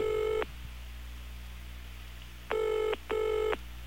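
A telephone rings in bright, steady tonal bursts: one cut short at the start, then a long silence before a closely spaced double ring, all over a low constant hum.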